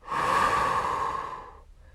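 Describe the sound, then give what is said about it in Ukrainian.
A single long, deep breath, a soft airy rush that swells quickly, holds for over a second and then fades away, heard alone with no talking. “Чим глибше ви вдихаєте і глибше видихаєте”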